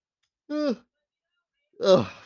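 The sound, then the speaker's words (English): A person yawns twice while mid-conversation. Each yawn is a drawn-out, voiced, groaning exhale of about a quarter second, separated by a short silence, with the second one slightly louder and rougher. “I don't know where these yawns come from when I'm talking.”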